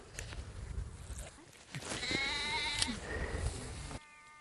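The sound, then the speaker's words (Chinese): An injured lamb with a broken leg bleats in a few wavering, high cries over steady low background noise. “抱了个小羊。 小羊哥，这腿摔了，这骨折了，走不上了”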